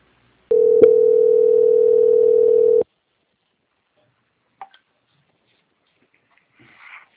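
Steady telephone line tone while a call connects to an audit and quality department. A single mid-pitched hum holds for a bit over two seconds and then cuts off, leaving near silence with a small click and faint noise.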